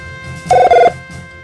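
A telephone rings at a radio station: one loud, brief ring in two quick bursts, set against a quiet background.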